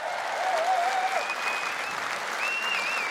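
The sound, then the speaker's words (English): A crowd of about 1,000 people applauds a guest of honour at a charity fundraising evening: dense, steady clapping with thin whistles sliding above it. “Matt Hampson, everybody. Put your hands together.”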